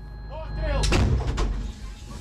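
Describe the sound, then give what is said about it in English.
A US-supplied howitzer fires cluster munitions at infantry positions: one heavy, booming blast that hits sharply and rumbles away within about a second, over a low, steady background rumble. “This US-supplied howitzer is firing on Russian infantry positions, and for the first time, we're seeing them using cluster munitions.”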